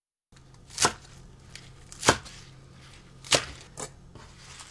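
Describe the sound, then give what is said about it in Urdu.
A knife chops fresh, washed spinach with roots trimmed into 5 cm pieces. A few sharp, crisp strikes land at a slow, uneven pace, fairly faint over a quiet steady background with no talking. “پہلے پالک کاٹیں گے۔ پالک کی جڑیں کاٹ لیں اور پھر انہیں دھو کر 5 سینٹی میٹر لمبے ٹکڑوں میں کاٹ لیجئے۔”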